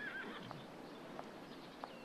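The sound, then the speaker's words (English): A white horse in a corral gives a short, high whinny at the very start, then a few soft hoof clops follow at spaced intervals, heard alone with no talk. “They climb steps to a corral where a female groom uncovers a beautiful white horse.”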